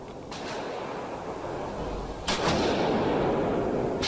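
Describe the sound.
Gunshots from a small Walther firearm at a gun range: a few sharp, faint cracks spaced seconds apart over a steady background hiss.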